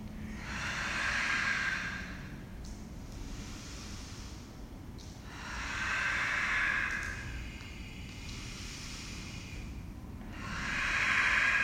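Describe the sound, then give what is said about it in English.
A group breathes in a steady rhythm while holding a forearm plank during a workout class, long airy breaths swelling and fading in a slow, regular cycle. “Stay with that breath rhythm here. I'm going to listen for your breath rhythm.”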